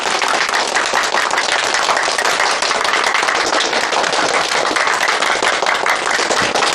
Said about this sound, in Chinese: 我们抗联啊，热烈欢迎啊！来，大家呱唧呱唧。